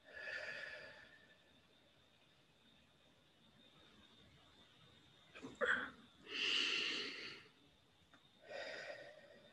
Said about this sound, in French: Expiration.